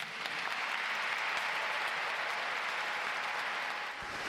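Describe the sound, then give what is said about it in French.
A crowd applauds the announced appointment of a priest as parish vicar in the diocese of Coutances. The clapping is steady and dense and softens briefly near the end. “Le peuple de Coutances et de tout le diocèse qui acclame cette nomination”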